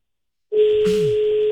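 Telephone ringing tone on an unanswered call: one steady, even electronic tone held for about a second, then cut off.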